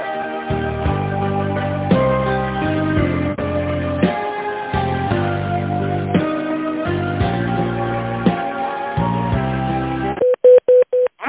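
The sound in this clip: Telephone tones during a call transfer to a manager: a long stretch of narrow-band melodic hold music, then a few short, steady beeps at the end.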